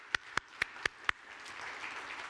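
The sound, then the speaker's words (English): Audience applause for a performing musical group: five loud, evenly spaced claps ring out first, then a softer, sustained wash of scattered clapping fills the rest. “Why don't you give them a round of applause one more time?”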